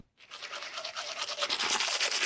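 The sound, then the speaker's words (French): A toothbrush brushing teeth, giving a steady rhythmic scrubbing of fast bristly strokes that grows slightly louder, heard alone. “c'est la brosse à dents, un objet tout simple devenu indispensable à nos vies modernes.”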